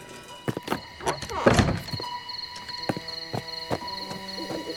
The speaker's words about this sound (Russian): Николай выбегает за дверь.